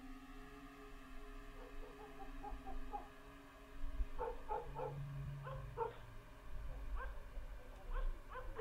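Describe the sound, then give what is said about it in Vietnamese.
Village dogs bark at night in many short, sharp yips and barks that come in uneven bursts, with a few whimpers mixed in. They sound fairly faint against a low background rumble. “Chó ở trong thôn bắt đầu gằn lên mà sủa nhấm nha nhấm nhẳng.”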